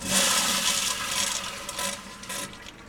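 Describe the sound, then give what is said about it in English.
A newly installed flushing toilet in a home's new bathroom gives a loud, rushing gush of water that holds strong, then gradually tapers off. “Artie Kamroff now has a bathroom with a sink and a flushing toilet.”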